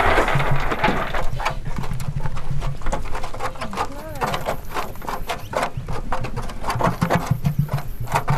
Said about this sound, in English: It's like it's a heaving mass of emus. Feathers and funny heads, yep. Yeah, so they seem to be kind of enjoying it.